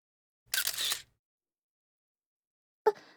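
Camera shutter firing during a posed photo shoot taken up close: a longer whirring snap, then after a gap of nearly two seconds a second, sharper click, with no talk in between.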